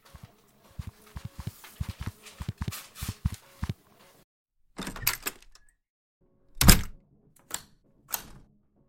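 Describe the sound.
Footsteps of people walking to an office: a run of quick, even steps, then a short pause and a few heavier, scattered thumps.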